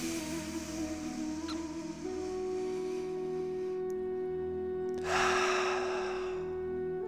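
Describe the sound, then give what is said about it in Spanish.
Slow breathing in and out over a steady, soft ambient music drone, with a louder breathy exhale swelling near the end. “Inhala y exhala.”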